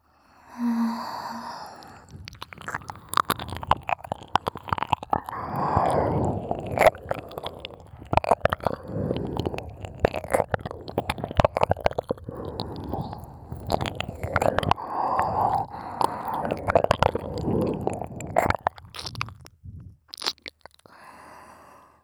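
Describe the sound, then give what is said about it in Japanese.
A wet stroking sound effect in an ASMR recording: many soft, rapid squelching strokes that repeat in an uneven rhythm throughout, with no talk. “おちんぽしごく音、チュコチュコチュコチュコ。”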